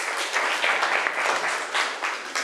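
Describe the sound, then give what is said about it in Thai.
Classroom students clap for a classmates' group that has just finished presenting. The applause is steady and brisk, with small surges in a continuous patter of hands. “ขอบคุณกลุ่มที่3มากๆเลยปรบมือให้เพื่อนอีก1ครั้งค่ะ”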